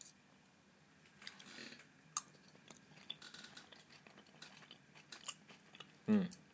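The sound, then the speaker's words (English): Soft chewing and mouth sounds of someone eating rice with a mild curry sauce containing desiccated coconut, with sparse crunches and clicks and one louder burst near the end, no talk. “Let's taste the rice.”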